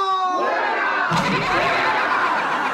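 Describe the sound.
A live audience bursts into cheering and laughter during a radio show. A brief voice comes first, then a loud, sustained wash of shouts and laughs rises suddenly and carries on to the end.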